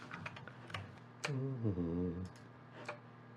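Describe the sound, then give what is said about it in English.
Faint, sharp clicks from a computer mouse or keyboard as a link is clicked, a few quick taps spread unevenly over several seconds. “Hang on, so let me click on the link.”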